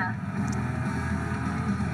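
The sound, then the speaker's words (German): A Corvette's engine drones as it is driven in a racing video game, a steady low hum that stays fairly faint and even for two seconds. “Die lenkt gut, ne? Ich finde, die, die lässt sich gut fahren. Die fährt sich gut, die Corvette.”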